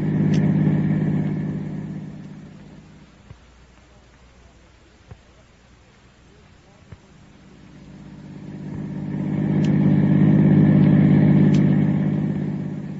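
A car engine hums steadily as the car drives, loud at first, sinking to a low rumble with a few soft clicks, then swelling back to a full drone.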